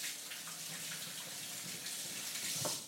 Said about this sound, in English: wash my hands